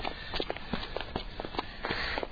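Footsteps of a person out walking, a quick, steady series of soft, light steps with no talk.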